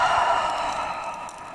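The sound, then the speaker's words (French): A long breathy exhale through the mouth during a breathing exercise, one soft steady rush of air that slowly fades. “Encore, on inspire par le nez et on expire par la bouche.”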